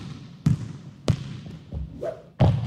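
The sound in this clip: A basketball bouncing, used as an effect to introduce a basketball segment: a few sharp, hollow thuds spaced irregularly apart, with soft rustling between them.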